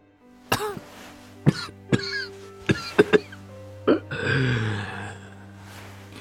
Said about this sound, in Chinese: 周宗棠气喘不上，连咳了几声